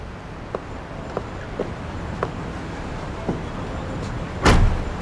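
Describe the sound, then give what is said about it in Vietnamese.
A car door slams shut once near the end as people get into a car, a loud thud preceded by a few faint clicks over a steady low rumble. “Vậy cũng được. Lên xe đi.”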